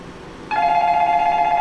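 A telephone line tone during a call that will not connect: after half a second of faint hiss, a loud, steady electronic tone with overtones starts abruptly and holds at one pitch to the end. No one speaks.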